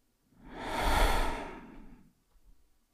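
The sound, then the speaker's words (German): A single deep breath, in through the nose and out through the mouth, swelling and fading as a soft breathy rush over about two seconds, followed by a faint, brief breath. “wenn du jetzt einfach mal mit mir gemeinsam drei tiefe Atemzüge nimmst, durch die Nase ein und durch den Mund aus.”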